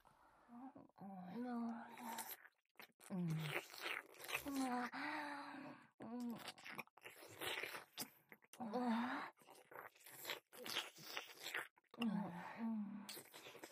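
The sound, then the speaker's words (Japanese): Wet licking and mouth sounds in an ASMR roleplay, soft slurping and smacking bursts repeating in clusters, interleaved with breathy whispered voice and low moans. “そして反対側から私も舐めるの。”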